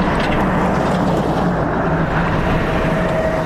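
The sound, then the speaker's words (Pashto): Vehicle engine and rumble from an aid-carrying motor vehicle driving on a rough, broken road to a district in Helmand. It is a dense, continuous low roar with no talk over it. “د باغران ولسوالۍ ته پر غځېدلي کنډ او کپر سړک د روان هغه کومک لرونکي بایپور موټر ژغ دی”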